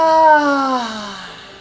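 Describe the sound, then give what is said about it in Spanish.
A long cry of release is let out after a held breath in a guided breathing exercise. It is a loud, sustained vocal 'ah' that slides steadily downward in pitch and fades out. “si deseas manifestarte y liberarte con un grito, lo hacemos junto. Inhala profundo. Guarda tu aire, guarda tu aire, guarda tu aire.”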